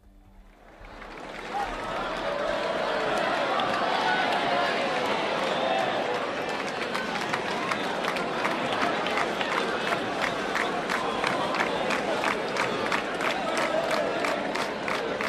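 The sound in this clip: Festival crowd ambience in the town square of Ciutadella during the Sant Joan celebrations: a dense crowd roar swells over the first two seconds, then holds loud and steady with many sharp, short hits scattered through it.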